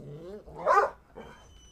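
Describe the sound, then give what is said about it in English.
A pet dog gives one sharp, fairly loud bark followed by a weaker yelp, over otherwise quiet background. “Sorry, everybody. No, you're all right. My lovely dog's throwing down.”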